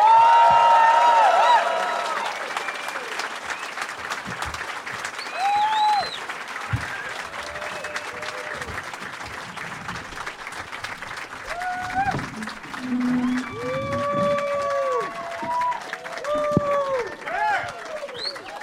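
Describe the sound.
A studio audience applauds to welcome three guests onto a show. The clapping is loudest at the start, then carries on more softly under a man speaking.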